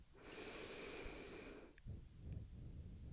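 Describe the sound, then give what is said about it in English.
A deep, slow inhale during a guided meditation: a steady breathy rush lasting over a second, followed by softer, lower breath sounds. “Taking a deep inhale towards your palms”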